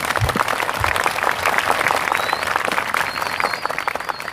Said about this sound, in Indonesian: Tepuk tangan untuk NU.